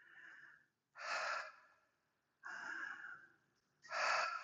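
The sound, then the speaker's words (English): Deep, breathy breaths taken in a standing rib-breathing exercise with hands on the ribs: a few loud, airy bursts of inhaling and exhaling separated by short pauses, with no talking. “Now we're going to take two breaths this way.”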